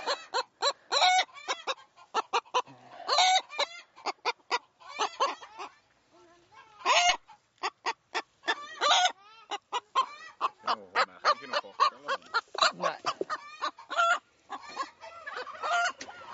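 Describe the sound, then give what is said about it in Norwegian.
Bantam hen clucking while brooding on a clutch of eggs, many quick rhythmic clucks in loud bursts with a few brief pauses, the bird heard alone with no talk. “hun lå på mange egg. Men de skal vi bare ta ut. Jeg trenger ikke flere dverghøns.”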